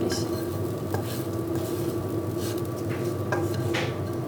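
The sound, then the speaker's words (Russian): Beans being poured into a pot to make a bean stew, heard as a few soft scraping and rattling bursts over a steady kitchen hiss. “Мы все пересыпали в кастрюлю. Добавили водички.”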